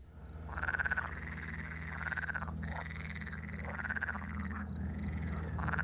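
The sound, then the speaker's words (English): Frogs croaking on an airfield: continuous rasping, pulsing croaks that swell in a few repeated phrases, layered over a steady low hum. “Sounds like a disgusting animal. It does. And it is kind of a disgusting animal. The name of that, and the main reason I clicked on this, the name of that recording is Frogs on Airfield.”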